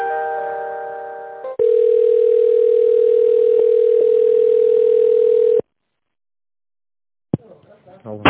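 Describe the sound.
Steady telephone line tone while an office call is transferred: a single continuous, loud tone holding for about four seconds. A different short tone comes before it, then silence, then a click and faint sounds.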